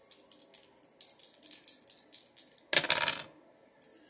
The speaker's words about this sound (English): let's go ahead and roll the dice and let's see what element we're working with